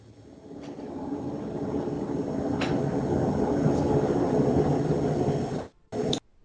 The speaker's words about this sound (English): Is there a plane coming in for a landing? What was that? That's a train going by my house.